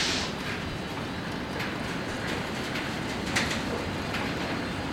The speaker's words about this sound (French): caché dans un train de marchandises. Étendu sur une plateforme, mon sac sous la nuque,